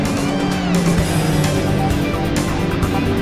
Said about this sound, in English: Racing cars on a rainy track.